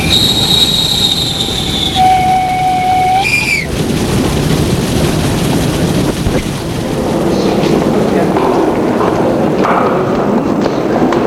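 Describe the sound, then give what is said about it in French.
A train arrives at a station, opening with sustained high squealing tones that step in pitch for the first few seconds, then giving way to a broad, steady rumble and rushing noise. “le train est arrivé.”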